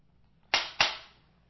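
A film slate clapper snaps with two sharp, loud claps about a quarter second apart. Each crack decays quickly after a quiet lead-in.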